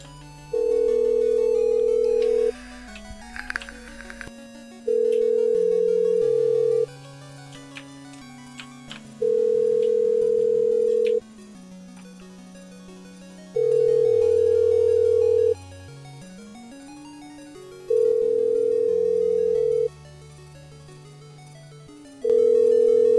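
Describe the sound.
A redialled telephone call rings out toward voicemail. After a short burst of dialling, six long, steady ringback tones repeat at regular intervals with silent gaps between them, over a soft, low, shifting tonal line.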